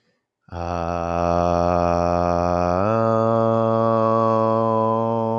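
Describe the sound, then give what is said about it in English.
A single chanted "om" closes a yoga session: a steady, sustained low voiced tone held for several seconds, its vowel shifting to a closed hum about midway while the pitch stays level. “Bring your hands to your heart center. One om.”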